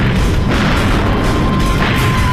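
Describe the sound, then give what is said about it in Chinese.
Bombs exploding on a burning aircraft carrier in a wartime air attack make one continuous, loud, dense roar of rumbling booms with no clear breaks. “紧接着，四枚炸弹又击中加贺号航母，炸死了其驾驶楼里所有的人，点燃了舰上的飞机，并在舰体深处燃起大火。”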